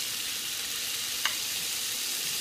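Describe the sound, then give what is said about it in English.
Chicken pieces fry in olive oil in a pan with a steady, even sizzling hiss throughout, broken once by a single brief click. “a little bit of olive oil. I'm going to go ahead and add the chicken in here.”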